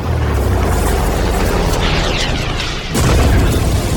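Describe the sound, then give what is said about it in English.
A missile airstrike explosion bursts as a loud, sustained roaring boom. A sharp second blast cuts in near the end and keeps the deep rumble going. “Preparing for airstrike. Target acquired. Missile fired.”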